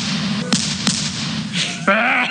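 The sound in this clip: Shotgun fire, heard as two sharp, quick cracks close together, then a louder burst of sound with a rising tonal streak toward the close.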